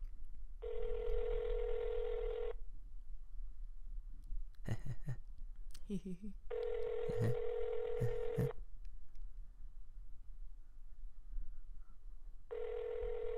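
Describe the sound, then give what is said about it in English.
A call to a fast-food restaurant rings on a speakerphone. Two long buzzing ring tones sound at regular intervals and a third begins, with brief voices and clicks in the gap between them. “All right. It's dialing. I'm putting it on speaker.”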